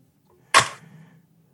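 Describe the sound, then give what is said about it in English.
A single sharp snap as a Ruger 9mm pistol is drawn out of a We the People holster, with a brief rattling tail that fades within half a second. “That is the sound of my Ruger 9mm coming out of my We the People holster.”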